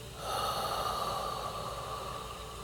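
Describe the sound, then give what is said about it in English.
A deep breath during a Reiki meditation, drawn in through the nose and let out through the mouth, sounds as one long, steady airy hiss lasting a couple of seconds. “One more time in through your nose and out through your mouth.”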